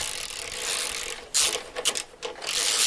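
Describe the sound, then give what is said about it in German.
Screws being fastened with an Allen key during simple do-it-yourself assembly, heard as a few short bursts of metallic clicking and rattling separated by quieter gaps. “Mit ein paar Schrauben und einem Inbusschlüssel macht er sich ans Werk.”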